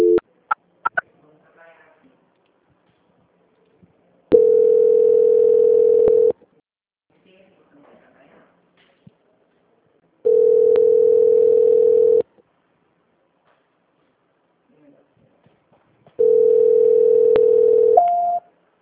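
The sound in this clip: A telephone line tone plays while a call is being transferred. Three steady, mid-pitched tones of about two seconds each are separated by near silence, with a brief higher note at the very end and a few soft clicks at the start.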